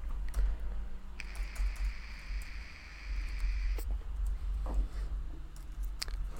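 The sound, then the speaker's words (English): Typing on a computer keyboard: a scatter of light, quick key clicks over a steady low background hum, with no voices. “I guess type in Disney Wonder Ball. Yeah, that's for sure what I'm about to type in.”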